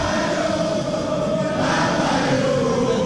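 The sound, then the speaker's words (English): Parliament members jeering and cheering as the finance minister concludes the 2024 budget: a continuous, loud din of mixed shouting and crowd noise from both sides of the house, holding steady throughout. “So that is how both sides of the house jeered and cheered when Finance Minister Ken Ovariate concluded the 2024 budget.”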